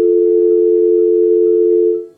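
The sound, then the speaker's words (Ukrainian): Steady telephone line tone heard as an incoming call is taken on air, a single loud, even mid-pitched tone lasting about two seconds before fading out. “На апаратурі ми приймаємо телефонний дзвінок, слухаємо зв'язок.”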